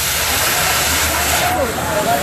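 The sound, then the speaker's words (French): A cutting torch slices through a metal mooring bollard with a loud, continuous roaring hiss that stays steady from start to finish. “Là, les gars sont en train de couper au chalumeau une espèce de bite d'amarrage qui dépasse pendant que les autres sont vraiment collés contre lui.”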